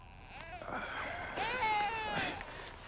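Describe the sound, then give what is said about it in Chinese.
An infant cries while being soothed toward sleep, giving thin, wavering wails whose pitch bends up and down across several cries, faint and continuous. “新妹子不哭啊，乖，睡。”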